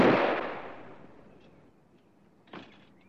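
A tear gas gun fires with one loud blast that fades out slowly. A fainter, brief knock follows about two seconds later.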